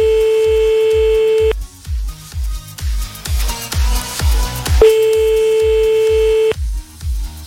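Ringback tone of a telephone call ringing unanswered: two long, steady tones, each about one and a half seconds, separated by a gap, over a thumping music beat that runs throughout.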